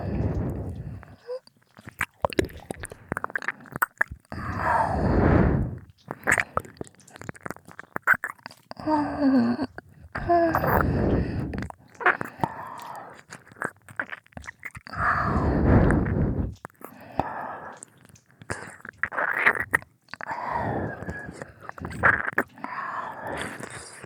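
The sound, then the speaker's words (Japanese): Close ASMR ear licking and nibbling, with many wet slurps, smacks and mouth clicks in bursts separated by short pauses, and soft whispering mixed in. “耳なめをしちゃうんだよ。ご主人様のお耳、食べちゃおう。”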